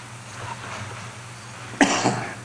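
A man coughs a couple of times in quick succession, a sharp loud burst followed by a weaker one, after a quiet stretch of low hum.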